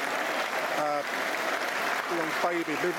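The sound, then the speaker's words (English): A football stadium crowd applauds in tribute, a steady, continuous wash of clapping with a few brief voices rising faintly above it. “This is 8 minute applause in honour of her and her family.”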